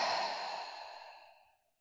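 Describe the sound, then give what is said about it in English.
A slow, steady breath out during a guided meditation: one long, soft exhale that starts full and airy and gradually fades away to nothing, heard on its own. “One more time, a breath here, leaning back into the moment, taking it in and breathing it out.”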